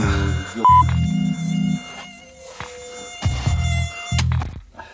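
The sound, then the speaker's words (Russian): A mosquito buzzes in a room: a thin, high, steady whine that holds throughout, broken by several loud, low, muffled bumps and rumbles. “Я говорю, комар ёбаный, блядь, третий день летает.”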